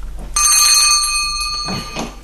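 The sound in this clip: Bell rung to summon a servant in a house: a single bright, clear ring sounds out sharply, holds its pure tone for about a second and then decays. Faint soft noises follow.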